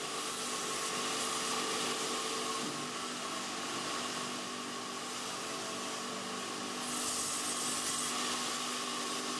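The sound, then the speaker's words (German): A saw cuts well-seasoned wood into blocks for making wooden clogs, a continuous, even mechanical drone with a slight dip in loudness midway and no voices. “Zunächst müssen aus dem gut abgelagerten Holz Stücke in die richtige Größe und Form gesägt werden.”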